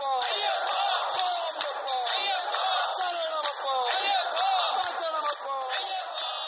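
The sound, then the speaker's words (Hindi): A crowd of protesters chanting slogans in unison in front of an airport arrivals area, many loud voices overlapping in a continuous, rhythmic roar that carries on without a break. “प्रदर्शनकारी सारा दिन ये नारे लगाते रहे ठीक airport के arrival launch के सामने।”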